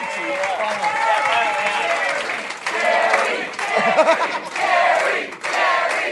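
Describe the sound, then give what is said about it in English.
An audience cheers and applauds a comedian at a live comedy show, with loud, sustained clapping and whoops and voices shouting over the noise. “Give it up for Gareth Reynolds!”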